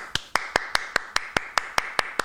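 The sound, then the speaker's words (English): One person applauds alone, clapping eleven sharp, evenly spaced times at a brisk, steady pace with nothing else around. “I'm just going to keep applauding just me.”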